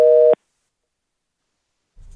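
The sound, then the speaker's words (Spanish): A single loud telephone busy-signal tone after a dropped call: one short, steady beep with a buzzy, harmonic-rich timbre cuts off abruptly. Silence follows, and faint low noise creeps in at the very end. “Se nos cortó la llamada.”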